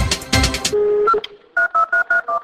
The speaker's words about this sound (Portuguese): Eu também liguei para ele para saber o que ele pensa sobre persuasão. Ouça como foi.